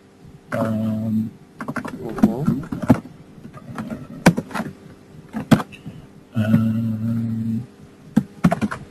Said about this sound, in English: So you type in your name. You type in your email. You type in your subject.